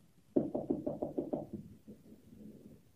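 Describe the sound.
Knocking on a locked door: a quick, even run of firm raps, then a few fainter, looser taps trailing off.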